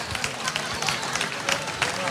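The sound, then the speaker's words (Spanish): A standing audience gives an ovation in a stage performance setting, with a steady wash of clapping and crowd noise mixed with a murmur of voices, holding at an even, fairly loud level throughout. “esa ovación”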